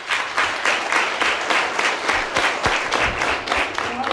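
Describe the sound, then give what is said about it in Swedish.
The audience at the Nordvåg revue breaks into loud applause as the show opens. The dense crowd clapping carries a regular, pulsing beat throughout, steady in level from start to finish. “Så en applaus til alle dere publikum.”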